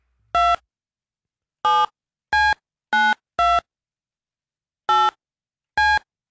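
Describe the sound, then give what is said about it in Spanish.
Seven loud phone keypad dialing beeps sound as a number is dialed to call someone. The tones are short and separate, in an uneven rhythm with longer gaps between some, and silence between them. “Vamos a marcarte a ver si me contestas, ¿ok? Vamos a ver. Que suene.”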